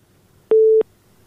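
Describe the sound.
A telephone busy tone after a dropped call: a single short, steady, mid-pitched beep, loud against a faint hiss.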